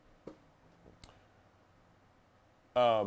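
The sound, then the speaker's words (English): A few sharp mouse clicks tick on a website's more button, spaced apart with quiet between them, and then a voice starts talking. “But if you click more, let's say we want to look at the credibility index, and I click more here.”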